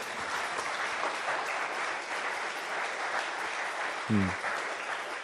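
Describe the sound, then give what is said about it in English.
An audience in a church applauds with thick, continuous clapping at an even level throughout, plus one brief low thump near the end. “I don't want applause.”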